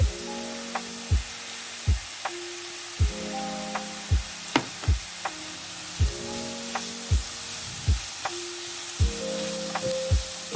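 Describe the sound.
Chopped mint sizzling as it fries in a pan with browned parsley, a bright continuous hiss that runs evenly through the whole stretch with no talk over it.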